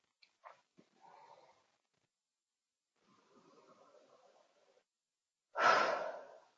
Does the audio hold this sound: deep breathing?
yes